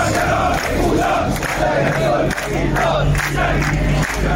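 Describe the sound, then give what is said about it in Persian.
Workers of the Ahvaz National Steel Group chant protest slogans in unison during a strike. A loud, continuous crowd of voices keeps up a steady rhythmic shouting over a low hum. “این صدای اعتراض کارگران گروه ملی صنعتی فولاد اهواز است.”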